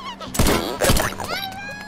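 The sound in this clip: Gunshots in a video game as the player shoots a TV: two loud, sharp bangs about half a second apart, followed by quieter sound.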